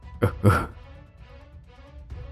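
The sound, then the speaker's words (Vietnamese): Two short, harsh coughs from a man, close together near the start, followed by quiet with only a low, faint background. “Ông ta nói xong thì ho lên khụ khụ, tay vỗ ngực đấm lên thùm thụp.”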